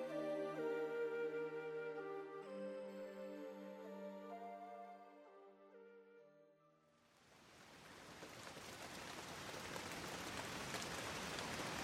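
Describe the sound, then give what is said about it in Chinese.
Steady rain in the April plum-rain season: a faint, dense hiss that swells in as a passage of tonal music fades, then continues alone to the end. “这鬼天气，又下雨了。不过也是，四月梅雨季节了。”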